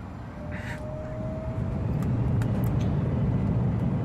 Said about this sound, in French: Nous allons décoller, monsieur.